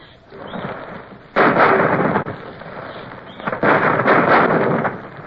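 A muzzle-loading naval cannon aboard ship firing cannonballs: two heavy booms, each followed by a long, roaring rumble, with a quieter stretch of low noise between them.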